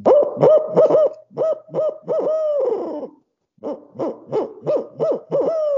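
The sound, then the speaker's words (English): An owl hoot locator call used for turkey hunting, made as an imitation of an owl. Rhythmic, resonant hoots come in two rapid phrases with a short silent break between them, each phrase ending in a drawn-out, falling hoot. “My favorite locator call is a owl call.”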